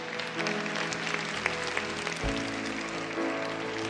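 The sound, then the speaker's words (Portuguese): Applause from a church audience during a worship service: a steady, dense wash of clapping at even loudness, with sustained musical tones underneath. “Deu as salvas e palmas aí.”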